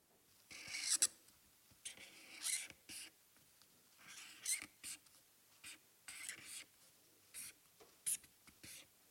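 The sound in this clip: Pen scratching on paper as a word is written by hand, a faint run of many short, dry scraping strokes in irregular bursts separated by brief pauses.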